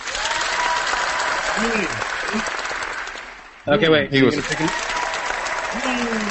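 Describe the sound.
Applause sound effect: steady, dense clapping runs throughout, with people talking over it.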